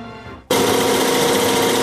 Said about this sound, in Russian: Ця машина щодня вишиває нові візерунки.